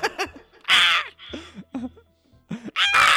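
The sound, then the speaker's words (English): Crow calls: loud, harsh caw-like bursts alternate with lower, shorter voiced calls in an uneven rhythm. “That's a crow.”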